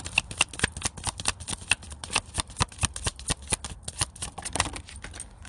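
Tarot cards shuffled and handled during a collective reading: a steady run of many crisp, rapid riffling snaps and flicks, moderately loud and continuous throughout, with no talking.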